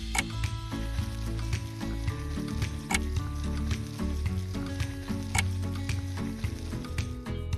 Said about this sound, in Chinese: 现在可以煎